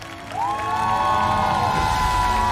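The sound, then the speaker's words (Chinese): Audience applause and cheering welcoming guests onto the stage at a traditional Chinese-style music show, starting after a brief pause and then holding as a steady, full wash of clapping. “首先让我们掌声欢迎国风音乐社的寻风主理人王佩瑜老师、立波老师，”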